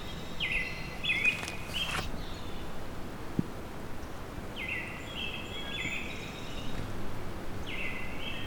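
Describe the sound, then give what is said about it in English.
Northern flicker calls: a few high, clear call phrases come in separate bursts over a quiet, faintly rustling outdoor background. “Okay, there's a northern flicker call.”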